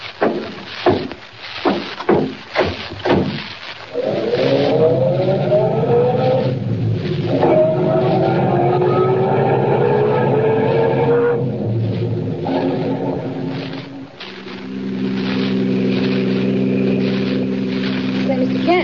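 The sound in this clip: A car engine drones as a vehicle drives on at night toward a town, following a series of sharp knocks. The tone rises and holds steady, then drops to a lower, even hum.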